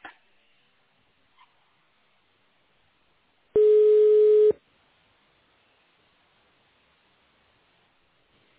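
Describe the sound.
A telephone line tone while a call is being transferred: a single steady, mid-pitched beep lasting about a second, loud against near silence, with faint clicks at the start and end.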